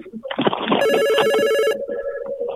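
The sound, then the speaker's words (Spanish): A telephone rings with a bright, buzzing electronic tone for about a second as a call comes in. A lower steady tone follows, and brief noise comes just before the ring. “Tenemos una llamada.”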